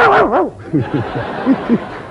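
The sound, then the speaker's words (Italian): A pet dog vocalising in a sung, howl-like way: several short, wavering yelps that rise and fall in pitch, loud at first and then quieter. “No, perché c'è il mio cane che canta”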